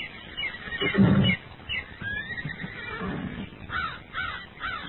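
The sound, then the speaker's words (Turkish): A horse neighs by a creek, with a loud whinny near the start followed by softer, breathy calls. “İşte ata da yaklaştım.”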